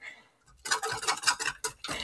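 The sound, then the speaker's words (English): A whole egg, shell and all, being whisked in a bowl. After a quiet start come quick, loud scraping and clattering strokes in a fairly steady rhythm. “I dropped the whole egg in, shell and all, but let's whisk it anyway. Mama said to whisk it. We're gonna we're gonna whisk it.”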